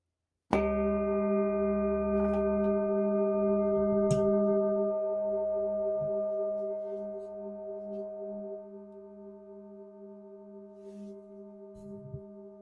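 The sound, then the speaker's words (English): A handmade Tibetan singing bowl is struck once and left to ring, giving a long, steady chord of sustained, shimmering tones that slowly fade over many seconds, with a few faint clicks near the end. “We're going to ring the handmade, beautiful Tibetan singing bowl. I'm going to bring the microphone over here, and we're just going to go ahead and hit this thing, and we're going to let it ring.”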